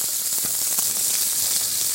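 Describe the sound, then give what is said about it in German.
Food sizzles as it is seared on all sides in a frying pan, a continuous bright, hissing fry with faint crackles running evenly throughout. “Wie gesagt, von allen Seiten möchte ich diese Röstaromen haben. Jetzt noch auf die schmalen Seiten und auf die Endseiten. Okay, also einmal richtig schön in der Pfanne durchdrehen quasi.”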